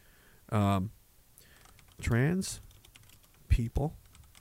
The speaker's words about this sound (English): So I've typed that.